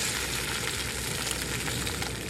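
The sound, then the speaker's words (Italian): Pancakes fry in a pan with a steady, dense sizzle and crackle that holds at an even loudness throughout, with no talk. “Poi feci saltare in padella le frittelle della pina.”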